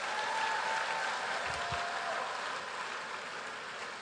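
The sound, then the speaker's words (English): Congregation applauding at a midweek church service, a soft, continuous patter of many hands that holds steady at a low level and fades slightly toward the end. “Come on, let's give the Lord a big hand.”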